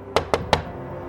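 Three quick, sharp knocks on the front door of a friend's home, evenly spaced and alone, with nothing following them.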